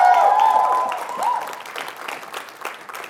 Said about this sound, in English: You guys give a hand for Ashley one more time.